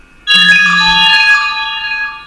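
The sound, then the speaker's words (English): A mobile phone's alert goes off as a text message arrives: a bright, chiming tone of a few layered notes that starts abruptly, holds loud and clear, and then slowly fades away. “Just had my wife's phone go off.”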